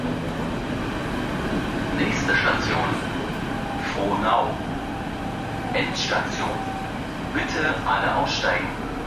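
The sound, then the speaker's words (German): A Berlin S-Bahn suburban train rumbles along in a steady, low drone, with people talking over the constant noise of the ride. “Nach Frohnau kommen wir mit der S-Bahn.”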